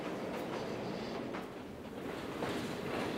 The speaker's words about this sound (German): Der Mont Blanc Express verlässt das Tal von Chamonix, schlängelt sich am Hang entlang, bis er schließlich die Ebene erreicht hat.